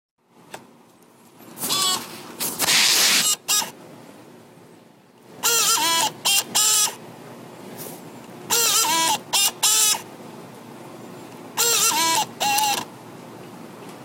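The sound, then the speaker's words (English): A computer DVD drive running its disc eject mechanism: four groups of motorized whirring and grinding bursts with sharp clicks, separated by stretches of low hum, after a single click at the start. “And this is the DVD drive exercising the eject machinery, I believe, or some machinery. I think it depends. Yeah, that's definitely the sound it makes when it ejects the disc.”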